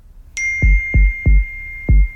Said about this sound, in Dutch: Dat was een toon, hè, de laatste.